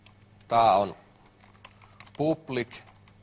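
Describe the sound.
Typing on a computer keyboard while writing code, heard as faint, quick key clicks beneath a person speaking in short bursts.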